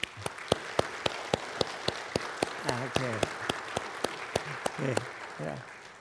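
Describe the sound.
A church audience applauds to welcome a new couple of members, sharp claps landing at a steady, even pace while voices speak briefly beneath them.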